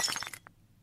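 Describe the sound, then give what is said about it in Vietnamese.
A porcelain tea cup thrown and shattering makes a brief, bright crash with a few sharp clinking fragments. One small chink trails after it, and the whole sound is fairly faint. “Sẵn tiện lão cầm cái chén uống nước chè, ném đánh xoảng một cái thẳng về phía đầu của bà già.”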